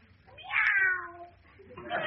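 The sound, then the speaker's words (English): A voice imitates a cat's meow: one drawn-out, slightly falling meow, then the start of a second one, fairly faint. “It's only the cat”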